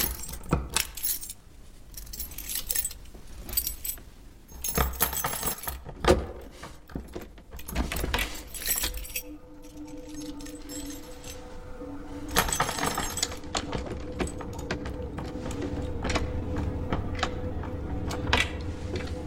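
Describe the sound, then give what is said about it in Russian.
A bunch of keys jangles and scrapes as someone tries one key after another in a locked door. Metallic rattling and clicks continue over many seconds with no voices. “подбирает ключ закрытой двери.”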